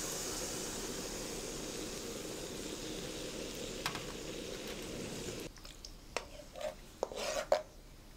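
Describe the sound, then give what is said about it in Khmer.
Stirring hot coconut cream with salt and sugar in a pot makes a steady, loud rasping scrape for about five seconds. Then it drops quieter, with a few light clinks and scrapes. “ខ្ញុំនឹងចាប់ផ្ដើមកូរខ្ទិះតែម្ដងបាទនៅពេលនេះខ្ទិះក្ដៅគឺខ្ញុំចាប់ផ្ដើមចាក់ខ្ទិះចូលកូរតែម្ដង”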